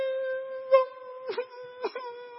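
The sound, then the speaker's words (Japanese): A human voice imitates a neighbour's dog crying sadly: a sustained, high, whining wail that holds a steady pitch and breaks with a few sobbing catches. “近所の犬がですね、って泣くんですよ。もう必ず悲しい声でですね”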